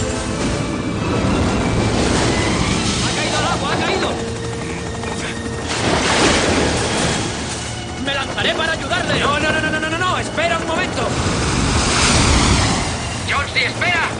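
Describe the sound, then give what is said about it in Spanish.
A huge storm wave crashes over a rescue basket at sea: a loud, continuous roaring surge of churning water that swells and recedes, with shouting voices breaking through the din. “Una enorme ola cubre la cesta y lo desmonta.”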